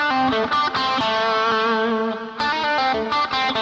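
A distorted electric guitar plays a lick with slides and a pull-off around the seventh fret, with a finger crossing the fourth and third strings. Loud, sustained notes with sharp picked attacks ring out alone.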